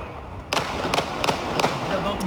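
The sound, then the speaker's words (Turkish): Gunshots in a street shootout between police and a suspect, recorded on a mobile phone camera: a few sharp, loud cracks spaced unevenly over continuous background noise. “Çatışma bir cep telefonu kamerasına saniye saniye yansıdı. Silah sesleri çevre sakinlerinde paniğe yol açtı.”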